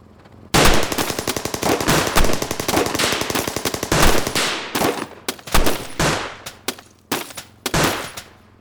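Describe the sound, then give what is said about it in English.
Gunfire from officers shooting at a Ford car comes as a loud, rapid, continuous volley of many shots, then breaks into a series of separate sharp cracks with brief gaps between them. “The next thing they knew, there was nothing but shooting.”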